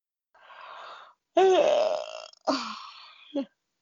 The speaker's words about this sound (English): That was a big yawn.